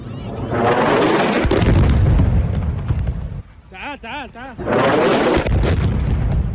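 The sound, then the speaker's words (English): Missile strikes and explosions hit apartment buildings in the Hamad town area of Khan Yunis: long, loud, roaring blasts, split by a short lull in which a wavering tonal sound is heard, then another heavy roar. “People ran for cover on Saturday as missiles hit apartment buildings in the Hamad town area of Khan Yunis. The city was targeted by a series of airstrikes and artillery fire”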